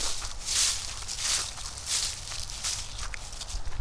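Footsteps crunch through fallen cottonwood leaves on a forest floor, a steady rhythm of brushing, crackling steps at moderate loudness over a low rumble, with no talk.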